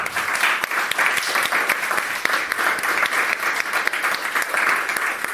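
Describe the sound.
An audience applauds to welcome a speaker, with dense, steady clapping that holds at an even loudness throughout, with no voices over it.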